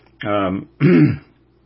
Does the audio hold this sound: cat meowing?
no